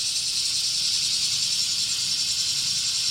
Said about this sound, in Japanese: セミの声が聞こえてくるでしょう。セミの声が頭の上から降り注いできます。